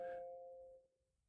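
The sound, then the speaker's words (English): A single phone notification chime rings out, a bright bell-like tone that sounds clearly and then decays away over about a second, leaving near silence. “bad form, not turning my notifications off.”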